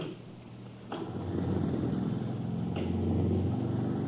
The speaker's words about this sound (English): Hey, what was that? Generator's warming up.